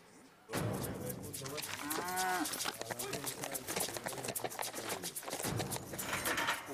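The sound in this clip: A calf bellows at a Chilean rodeo while two mounted horsemen chase it. Fast, drumming hoofbeats run through the whole clip, and a prominent moo comes early on.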